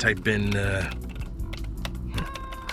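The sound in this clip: Rapid clicking of a computer keyboard as someone types to set a shortcut, a run of light uneven keystrokes that follows brief talk at the start.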